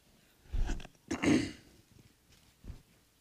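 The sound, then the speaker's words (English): A person clears their throat with two loud, rough, raspy bursts close together, then a faint short third sound, with quiet in between. “Get my little throat clear here.”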